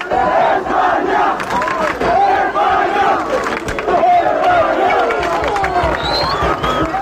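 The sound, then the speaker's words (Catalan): Football fans, mostly Spanish, chant loudly before a final, a dense crowd singing in rising and falling waves with shouts mixed into the roar. “L'ambient era magnífic i els ànims estaven ben amunt abans de començar. La gent, sobretot els espanyols, ja cridava tota mena de càntics.”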